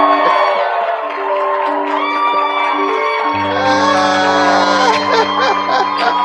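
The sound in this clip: An audience cheers and shouts to welcome a pastor, a loud, continuous mix of whoops and raised voices that swells in the second half.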